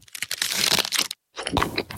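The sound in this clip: Crisp crunching and crackling of an Aero mint chocolate bar being bitten, in two dense bursts of brittle snapping separated by a brief silence.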